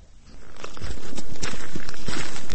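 Footsteps crunch along a snow-covered road leading to a park on a freezing, snowy day. Steady, muffled steps over a constant background hiss, with no talking.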